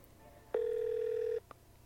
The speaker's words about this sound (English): Come on, babe, pick up.